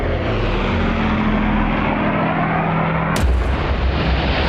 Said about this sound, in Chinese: 兰开斯特式轰炸机呼啸着冲过来，在18米的飞行高度急速掠过海面，然后投放弹跳炸弹。